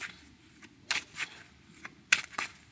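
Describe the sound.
A deck of cards being shuffled for a card reading: short, crisp riffling bursts in two close pairs, separated by quiet.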